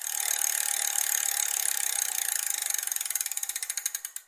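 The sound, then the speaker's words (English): A prize wheel spins with rapid, continuous ratcheting clicks that gradually slow into distinct, spaced-out clicks as it winds down. “I need numbers. I'm going to spin a wheel.”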